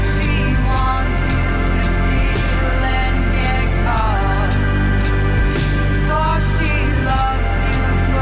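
A pop song plays with a sung vocal melody over steady bass, sustained harmony and light percussion, loud and continuous throughout.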